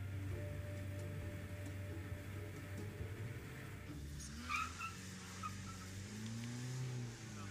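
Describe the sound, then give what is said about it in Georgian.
A car engine drones steadily on the climb up the road of a cloud-covered volcano, a low continuous rumble with shifting tones as it works uphill, loud throughout with no voices. “მადლობა ღმერთს, რომ ასეთი მანქანა მყავს. სხვა ტრანსპორტით აქ ვერ ამოვიდოდი.”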